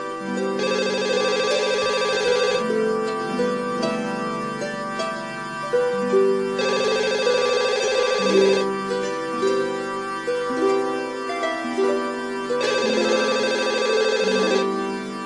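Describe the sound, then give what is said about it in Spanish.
A telephone rings through an unanswered call, its melodic electronic ringtone repeating the same tune over and over, with brighter phrases recurring throughout and no voices. “Bueno, yo estoy llamando ya por aquí.”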